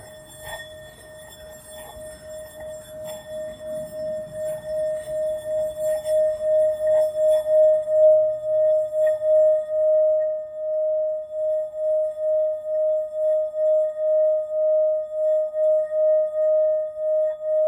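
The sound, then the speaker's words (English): A newly acquired singing bowl rings with one sustained, clear tone and faint higher overtones. The ring holds steady for the whole stretch with a slow, regular wavering pulse. Soft rustling sits under its start. “This is my new singing bowl.”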